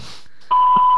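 A voicemail beep sounds after a recorded greeting: one steady, mid-high electronic tone lasting about half a second, alone and clear after a brief quiet stretch.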